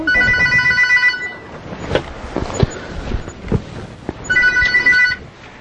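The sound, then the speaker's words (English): A telephone bell rings in a home in two bright bursts, one at the start and one near the end, with a few soft knocks and handling noises in the quiet gap between. “There goes the phone.”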